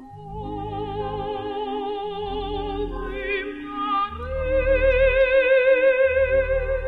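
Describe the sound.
A soprano sings sustained notes with wide vibrato over soft orchestral accompaniment, her line climbing to a higher held note partway through and swelling louder toward the end.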